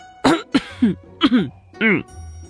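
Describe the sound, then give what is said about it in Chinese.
A man gives an awkward, embarrassed cough, a few short voiced coughs and throat-clearing bursts in quick succession that are loud and separated by brief pauses. “展昭尴尬的咳嗽”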